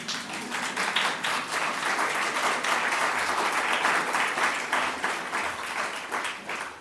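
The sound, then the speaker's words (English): Audience applause at the end of a lecture: steady, dense clapping from many hands, moderately loud and sustained throughout without speech. “Now, this is the end of my lecture. You're allowed to clap”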